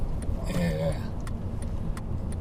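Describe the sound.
Car interior while driving: a steady low road rumble and engine drone runs throughout, with faint higher hiss and a few brief ticks above it.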